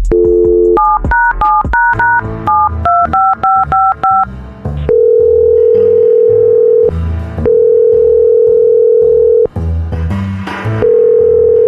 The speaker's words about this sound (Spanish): Vamos a marcar.